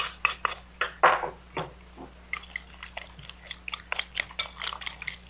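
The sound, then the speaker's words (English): Ingredients for a Spanish omelet being mixed together, heard as many irregular wet, crunchy clicks and taps in quick succession, fairly faint, with no talk. “Now, mix the whole works together.”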